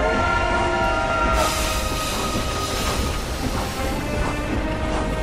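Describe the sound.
Railway carriage rolling on the tracks, a steady, dense rumble with a thin metallic whine running through it, holding at an even loudness throughout without breaks.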